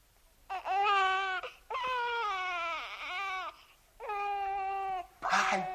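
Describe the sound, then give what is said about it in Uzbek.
A baby crying with several long, wailing cries separated by short pauses, each loud and strongly tonal, ending with a brief, rougher burst. “Bay, vay, chaqaloq-ku. Seni kim qo'ydi bu yerga?”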